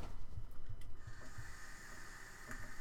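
A vape inhale of Zion's Vape: a steady breathy hiss that holds for the whole stretch, with a few soft low puffs underneath.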